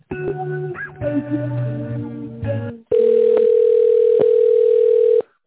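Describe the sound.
A steady, unbroken telephone tone holds loud and even for a little over two seconds while an office call is being transferred, after a short stretch of other phone-line sound.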